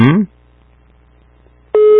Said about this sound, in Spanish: Ahí está la primera timbrada.